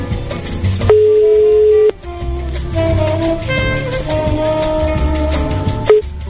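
An outgoing phone call's ringback tone sounds as one steady beep about a second long, with a second beep starting near the end, over background music.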